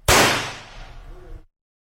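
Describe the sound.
A gun firing a blank on a film set: one loud, sharp blast that rings and slowly decays for over a second before cutting off abruptly.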